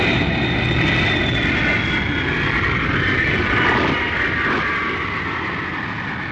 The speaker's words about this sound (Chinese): 歌声中，波音747客机降落在首都国际机场。